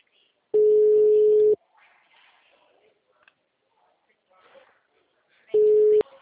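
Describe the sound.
An unanswered telephone call gives two steady, moderately loud ringback tones, each about a second long, separated by a long pause with faint sounds in between.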